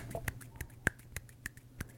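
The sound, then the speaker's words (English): Sharp, dry hand claps or slaps from a one-hand clapping trick repeat in a quiet, uneven series of about six distinct clicks, heard alone. “What is the sound of one hand clapping?”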